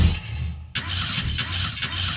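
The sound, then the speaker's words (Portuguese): A car engine starting: a broad mechanical roar cuts out briefly, then catches again and keeps running loud and rough to the end. “carro aí, motor!”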